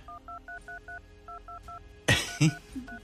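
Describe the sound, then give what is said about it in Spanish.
Telephone keypad dialing tones while redialing a number: a quick run of five short, clear beeps, then three more, two sharp knocks, and a final beep at the end. “Voy a volver a marcar. Terminación 64, por el amor del Señor. Estamos marcándote, terminación 64.”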